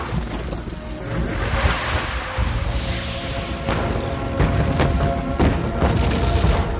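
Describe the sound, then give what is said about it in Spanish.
Explosions as the underground collapses in a 2017 science-fiction action film: a dense, continuous rumbling roar with several heavy booms that grow louder toward the end. “El subsuelo se desmorona entre grandes explosiones.”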